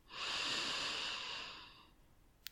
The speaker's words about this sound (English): And breathe in.